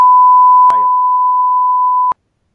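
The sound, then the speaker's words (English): One steady electronic beep at a constant mid pitch, lasting about two seconds before it cuts off abruptly, with a brief click near its start. “that was a good timing for the beep there.”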